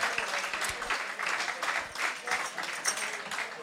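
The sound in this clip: An audience applauds at a festive day event in French-speaking company as a guest from Flanders, Belgium, is welcomed: dense, continuous clapping at an even level throughout, with no gaps.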